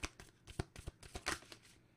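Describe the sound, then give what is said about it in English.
An oracle card is drawn from a card deck with quiet, papery rustling and many short, crisp flicks and slides of the cards. “we're going to close this out with an Earthcraft Oracle card. Let's get one.”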